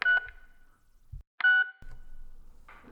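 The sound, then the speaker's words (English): Phone keypad tones sound while voicemail is checked: two short, bright electronic beeps about a second apart, each fading quickly, with a soft low thump between them and faint rustling afterward. “Just check my voicemails here.”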